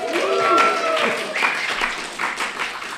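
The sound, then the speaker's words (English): Clapping and noise from an audience at a live science-week recording at Flinders University, south of Adelaide. The applause is loud at first with some voices mixed in, then eases off and thins toward the end. “And there is an audience of humans looking on, listening and making some noise.”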